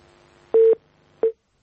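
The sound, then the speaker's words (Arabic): Two beeps of a telephone line tone as a caller's call is cut off: a longer steady mid-pitched tone, then a shorter one, with quiet hum between them and no talk. “طيب انقطع الاتصال.”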